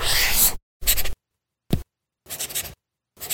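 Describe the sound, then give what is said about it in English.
A stylus scratches across the writing surface of a Remarkable Paper Pro, a paper-feel tablet with a colour ink display. Five separate bursts of dry, papery scraping are split by clean silences, one of them only a brief flick. “That's not paper. It's the sound of the new Remarkable Paper Pro, rewriting the future.”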